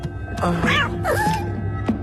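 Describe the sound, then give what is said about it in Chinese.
Cats meowing: a couple of rising-and-falling meows, fairly loud and close together, over a faint low background. “你为什么养这么多猫啊？ 因为这里只有他们能陪我这个老东西了。”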